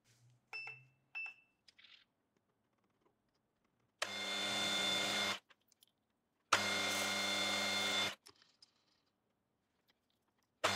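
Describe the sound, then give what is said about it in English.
A drill bores through four stacked pieces at once: two long, steady runs of loud, whining motor noise, each lasting over a second, with a few faint clicks and taps before and between them. “and I'll drill those through all 4 pieces at once.”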